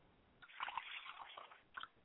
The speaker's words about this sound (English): as I pour libation for my father, Oladulamare